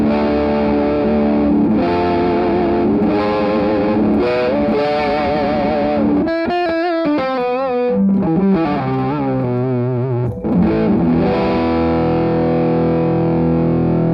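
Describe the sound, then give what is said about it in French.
Distorted electric guitar worked with its non-locking vibrato bar: sustained notes and chords waver in pitch in gentle tremolo wobbles rather than deep dives, played alone and loud throughout. “Je recommence à jouer avec le vibrato un petit peu.”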